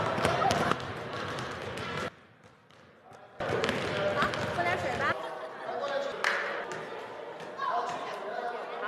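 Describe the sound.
Basketball bouncing as friends play a game, repeated thuds of the ball under voices and chatter, with a brief quieter lull in the middle.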